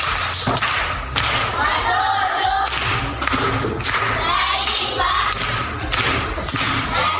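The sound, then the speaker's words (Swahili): Children clapping for a performer at a primary school gathering, with several loud, irregularly spaced claps standing out over a bed of voices and rustling. “Mwingine mwenye burudani, makofi kwa mjomba.”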